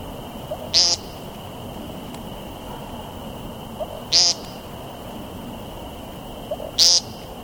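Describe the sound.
A bird's nasal ping call, three short, high, buzzy pings spaced about three seconds apart, each standing out above a steady soft background hiss.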